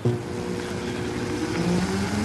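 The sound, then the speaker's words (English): Whine of a Formula Hybrid open-wheeled, Indy-style race car on an electric-only run at a competition, a steady whirring electric drone with thin tonal hums that shift slightly in pitch, loud and continuous throughout. “It's Wednesday, day three of the Formula Hybrid International Competition, and the roar of stock cars has been replaced with this.”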